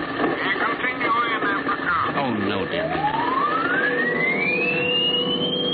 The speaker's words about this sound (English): That's a very peculiar transmission sound.